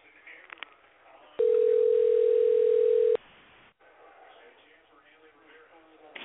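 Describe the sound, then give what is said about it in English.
Steady telephone dial tone heard while a number is being dialed: one loud, unbroken hum lasting about two seconds, set between stretches of faint, low background noise. “All right, so I'm dialing the number now.”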